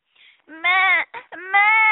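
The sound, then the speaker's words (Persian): A voice imitates a goat kid bleating and crying, giving a few wavering, nasal, high-pitched cries separated by brief breaks, loud and alone. “ترسید و معمع کرد و گریه کرد.”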